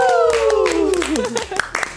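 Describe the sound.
Clapping breaks out to welcome a guest on a show, a short burst of claps that follows a long cheering whoop falling in pitch.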